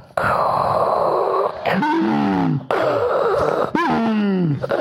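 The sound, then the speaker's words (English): A man's voice imitates a hand pump with heavy, breathy, strained vocal bursts. There are several loud pumps in a steady back-and-forth rhythm, and they alternate between hissing breath and groaning tones. “That's my hand pump noise. I thought that was obvious. It's pretty good. I'm not a Foley artist.”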